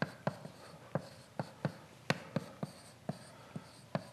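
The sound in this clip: A pen or marker scratches sharp marks onto a board during a lecture. A series of crisp, percussive strokes and taps lands at uneven intervals over a faint background hiss, with no speech.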